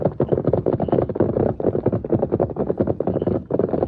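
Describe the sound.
Horse hooves pound in a Western radio drama as two horses gallop off, a rapid, driving, even rhythm of loud thuds that runs without pause through the whole stretch.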